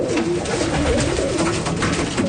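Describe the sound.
Pigeons cooing as hundreds of birds crowd in to be fed grain, a dense, continuous murmur of overlapping low coos with a busy texture throughout.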